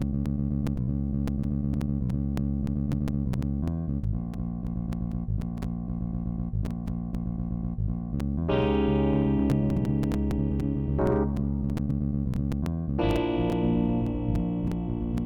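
Opening section of a student's own music composition: processed, effects-heavy music with sustained chords over steady ticking pulses, turning brighter and fuller partway through, with no voices.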